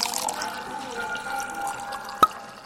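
Wine is drunk straight from the bottle, giving faint liquid gurgling under a thin steady tone, with one sharp drip-like click near the end.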